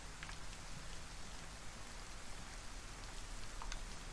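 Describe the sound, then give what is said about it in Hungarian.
Heavy rain pours down in a video game as a steady, even, quiet hiss of raindrops with no break. “Hú, de szakad az eső, basszus.”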